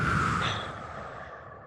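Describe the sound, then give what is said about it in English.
A slow, deep breath is released during a guided breathing exercise: a single soft, breathy exhale that fades away over under two seconds, quiet and alone. “Take another deep breath in. Release.”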